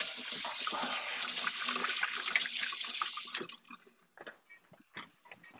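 Tap water runs steadily while something is washed during no-knead bread making. The water stops after about three and a half seconds, and a few short clattering knocks follow.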